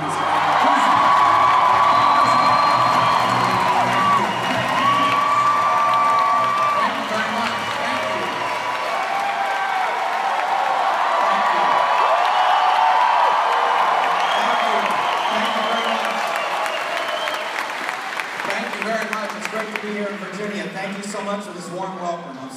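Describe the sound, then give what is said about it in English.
Crowd cheering, whooping and applauding at a political campaign rally before Super Tuesday as people wait for the candidate to come out. The dense, steady roar of many voices continues throughout, easing slightly near the end. “This is a rally. It's getting started. You can hear it in the background.”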